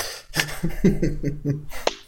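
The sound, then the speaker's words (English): A slow clap in the film Cool Runnings as the bobsled is carried toward the finish line: several sharp handclaps in a steady, even rhythm with a low tonal sound behind them. “Then we got a slow clap, Paul. Oh my god, I'm so happy to have a slow clap. A genuine, earnest slow clap. Not ironic.”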